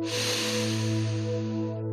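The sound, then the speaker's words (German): A deep breath drawn in through the nose during a guided meditation: a soft, airy hiss that swells and then fades over about two seconds above a steady, sustained low tone. “Atme tief durch deine Nase ein”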